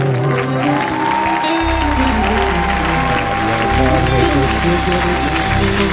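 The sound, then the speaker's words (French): Congregation clapping during a French-language worship song, a busy patter of hands blended into loud music with a sustained high tone and heavy, droning bass. “Applaudissons le Seigneur. Applaudissons le Seigneur.”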